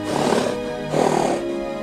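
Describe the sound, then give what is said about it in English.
A horse whinnying among other horses, two loud harmonic neighs separated by a short gap, each voiced and wavering, with no talk over them. “He spots Joe again, who's looking at all the horses. Beauty neighs to attract his attention.”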